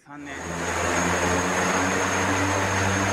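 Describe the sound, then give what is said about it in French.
A piloted Japanese electric vertical take-off and landing multirotor prototype, backed by Toyota and test-flown near Nagoya, gives a loud steady whirring hum of spinning rotors that builds within the first half second and then holds constant. “Voici le premier multirotor électrique à décollage et atterrissage vertical japonais.”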